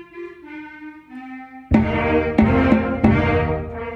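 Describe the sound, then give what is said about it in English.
An adult amateur band of beginners, the Act Two Band of the Traverse City Philharmonic, rehearsing after about nine weeks of practice: soft sustained wind notes, then the full band comes in loudly with drum hits and brassy chords. “Okay, so this is the sound of the Act Two Band, a group of adults who are learning to play musical instruments in a program through the Traverse City Philharmonic.”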